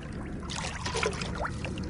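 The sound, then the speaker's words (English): Water sloshing and trickling as nets sweep through a wetland pond during pond dipping, a soft continuous wash with a slightly brighter splashy stretch in the middle. “We've all got some nets and we're fishing throughout the water trying to see what we can get out.”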